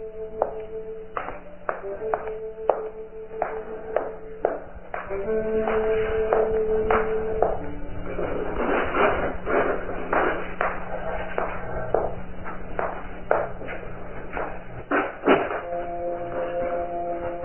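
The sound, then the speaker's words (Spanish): A key turns in a rusty lock with many metallic clicks, taps and squeaky scrapes in an uneven rhythm, some spaced out and some in dense clusters. “Se oye la llave girar en la cerradura mohosa”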